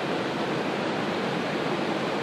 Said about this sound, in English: The water's very powerful. Powerful waters.